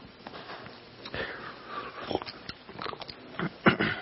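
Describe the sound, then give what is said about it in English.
A speaker pausing mid-sermon to take a drink makes a few soft mouth sounds, sips and swallows, along with a clear sniff. These come in short separate bursts, with the loudest near the end. “Excuse me. Take a drink.”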